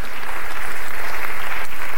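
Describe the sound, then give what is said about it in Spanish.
Congregation applauding during a church service: loud, sustained, tightly packed clapping that stays at full strength from start to finish. “Dele palmas al Dios de la gloria.”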